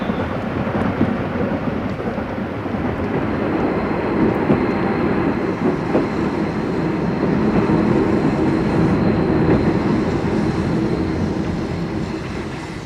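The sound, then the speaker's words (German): An express train bound for Paris pulls into a station with a long, continuous rumbling roar that swells slightly midway and eases toward the end, with no voices. “Es hat Einfahrt der fahrplanmäßige FD-Zug nach Paris. Bitte zurücktreten. Zurücktreten, bitte.”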